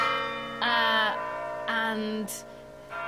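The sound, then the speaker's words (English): Church bells toll in a resonant, sustained ringing, with a few swelling strikes rising over a steady, fairly faint hum. “those bells, they're tolling. I don't really know what that means. That's quite scary.”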